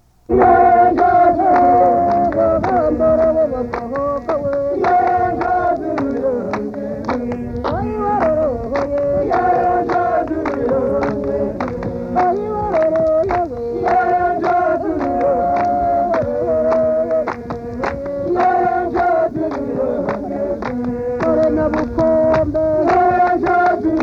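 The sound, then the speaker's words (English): A Twa warrior's praise song, sung as a dance song of the Astrida region of Rwanda. Voices chant a repeating melody over simple, steady hand clapping that continues loudly throughout. “I have one final selection of Twa music, and it's a recording of a dance song of the Astrida region. We have time for just a little bit of a warrior's praise song with simple hand clapping for accompaniment.”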